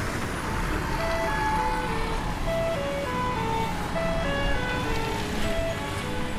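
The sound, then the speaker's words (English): New standard pedestrian crosswalk signal in downtown Prince George, British Columbia: short bright beeping tones in repeating few-note melodic patterns, loud and clear over a steady background hum. “Some reactions to the new crosswalk sound in downtown Prince George. That sound is actually the new standard for crosswalks in BC”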